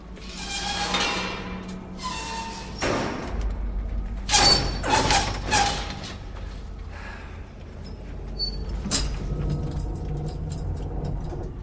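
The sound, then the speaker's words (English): The metal cage door of a mine shaft lift being opened: a few loud metallic clanks and rattling scrapes in the middle, over a steady low rumble. “At the foot of the shaft, Greg budges open the cage door.”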